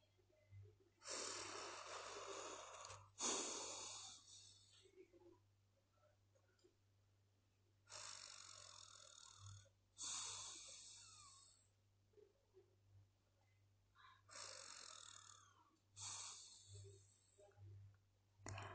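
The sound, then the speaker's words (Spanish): Forceful breaths through one nostril during a yoga breathing exercise: three breath cycles, each a pair of loud hissing nasal rushes separated by quiet pauses, over a faint steady low hum, with no talking. “Ahora cubre la fosa nasal derecha con el pulgar derecho y repite las tres respiraciones”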